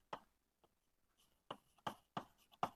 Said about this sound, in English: I'll write it down.